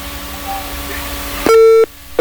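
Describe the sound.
A phone call cuts off: hissy, humming line noise gives way to loud, steady beeping on the dropped line, one long beep followed by the start of a second.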